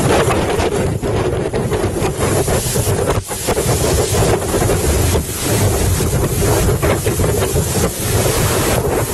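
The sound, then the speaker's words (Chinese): Strong wind and big waves buffet a boat at sea on its way to the port of Wellington, New Zealand: a loud, unbroken roar of wind and rushing water, with buffeting gusts hitting the microphone and no pause throughout. “今天早晨开始，狂风巨浪啊，向我们袭来。”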